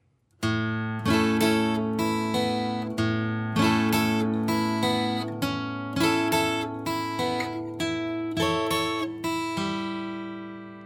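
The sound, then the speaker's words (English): Guitar chords strummed in a steady rhythmic sequence: many bright, full strums over about eleven seconds, each ringing out and fading slightly before the next, with a low bass note beneath and no voices. “So let me play that sequence for you from the start of the chord strumming.”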